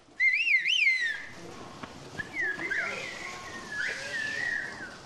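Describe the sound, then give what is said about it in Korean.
People whistling to each other in a whistled language: a loud, piercing whistled phrase that warbles up and down in pitch, followed by fainter, longer whistled phrases over a steady background hiss. “Buradan oraya karşılıklı ıslık yapacağız. 주민들의 80% 정도가 아직도 휘파람 언어를 사용한다고 합니다.”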